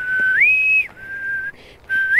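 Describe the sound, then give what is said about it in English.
A shrill naval-style bosun whistle, the submarine-style call from an old TV space series. It rises to a high held note, dips briefly, then holds a long lower tone before a break and a final upward sweep. No voices. “That's why in the old Star Trek series you would have that weird whistling sound. When they're in informal occasions, you would always hear this whistle, like”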